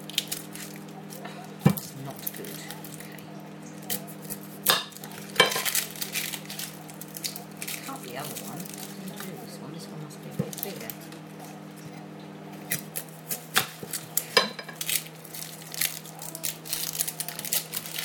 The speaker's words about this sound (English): God, this knife's not very good. It ought to be. It's going to get stuck in the bloody onion.